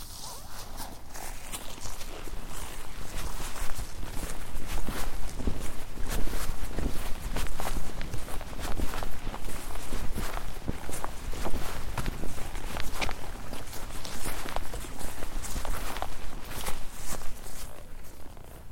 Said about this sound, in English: Man, that sounded like walking.